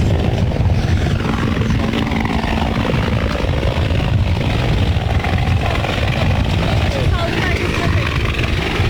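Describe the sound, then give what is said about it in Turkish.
A coast guard rescue helicopter hovers over survivors in the sea, its rotor and engine making a loud, steady, unbroken drone. Talk can be heard over it. “Sahil güvenlik helikopteri kazazedeleri denizden kurtarmak için şu anda tam kazazedeleri üzerinde.”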